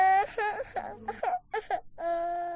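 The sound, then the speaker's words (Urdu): A young girl cries on a children's show, breaking into several high, quavering whimpers and sobs before settling into a longer sustained wail at the end. The cries are loud and heard alone. “ارے بابا کیوں رو رہی ہو”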